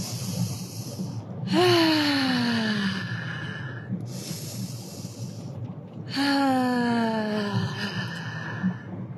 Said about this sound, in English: I'd like for us to take a deep breath now.